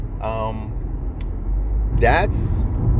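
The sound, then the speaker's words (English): A car driving to Walmart gives a low, steady engine and road rumble throughout, with a voice talking over it. “I'm driving to Walmart”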